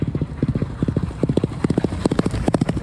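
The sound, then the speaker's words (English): Hooves of a galloping racehorse beat in fast, rhythmic groups of sharp hits. The clear clip-clop pattern repeats many times, with no talking over it. “Just tell us a bit of what you like about this sound of this galloper right now.”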